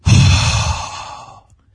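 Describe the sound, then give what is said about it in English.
A voice imitates a breath blown out to give life to a man formed from dust: one long, forceful, breathy exhale that starts strong and fades out after about a second and a half. “And he breathes life into Adam.”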